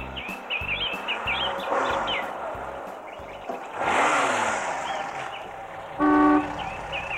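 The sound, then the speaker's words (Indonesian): A car on a trip to a village gives a short, loud horn toot near the end. Chirping birds and a steady low rumble run underneath. “Hari Minggu, Nesa diajak ayah dan ibu pergi ke rumah pamannya di desa yang letaknya jauh dari kota dengan naik mobil miliknya.”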